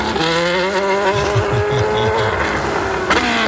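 A Red Bull Formula racing car drives on city streets, its loud, high-pitched engine whine climbing steadily in pitch before a sharp shift near the end.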